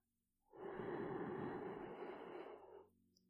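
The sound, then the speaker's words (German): A deep inhalation through the nose during a guided meditation, a soft, airy rush that swells in and holds for about two seconds before easing off, heard alone without talk. “Atme tief durch die Nase ein”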